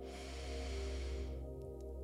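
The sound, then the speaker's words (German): A deep inhale during a guided meditation: a soft breathy rush lasting about a second and a half, then fading, over a steady low drone. “Okay, ich zähle bis drei. Eins, zwei, drei. Einatmen.”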